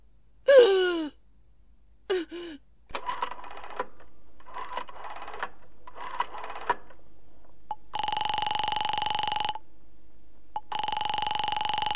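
Someone dials a telephone: a couple of breathy gasps, then a few rapid bursts of dial clicking, followed by two long, steady electronic tones on the line.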